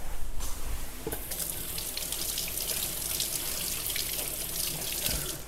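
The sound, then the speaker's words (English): Water runs steadily from a kitchen tap as an orange is rinsed under it, giving a continuous splashing hiss with a few small bumps near the start and no voices. “Oh, I should give this orange a wash.”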